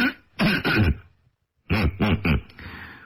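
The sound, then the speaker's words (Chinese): A man clears his throat in two separate bouts, each made of a few rough, rapid rasps. A short silence falls between the bouts, and no words are spoken. “咳了咳嗓子”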